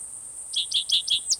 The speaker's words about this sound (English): cicadas in the background